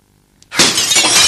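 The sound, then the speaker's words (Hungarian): A glass window is broken: a short faint tap, then a sudden loud shatter and a sustained, bright spray of breaking glass. “Betörhetem az ablakot? Be.”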